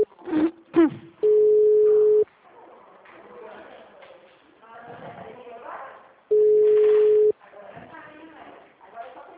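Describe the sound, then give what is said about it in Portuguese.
Telephone ringback tone on a bank office call being transferred: two long, steady tones of about a second each, with people talking before, between and after them. “O Marcos pediu pra eu ligar pra ele. Eu liguei mais cedo, transferi a ligação, mas chamou e ninguém atendeu. Tá, eu vou tentar agora então, só um pouquinho.”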